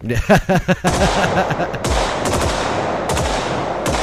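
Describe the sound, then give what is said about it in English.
M16 rifle gunfire, the Vietnam-era combat rifle, opens with a few sharp separate shots and breaks into sustained rapid automatic fire, loud, dense and crackling throughout. “Soldier's best friend in Vietnam. It fired the lighter ammunition much faster.”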